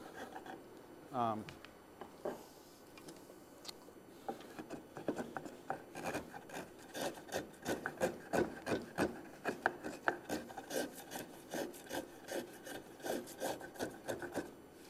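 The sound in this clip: A small gouge hollows out wood while carving a model, producing scraping, rasping strokes. They start sparse, then become many quick, rhythmic cuts of moderate loudness that continue to the end.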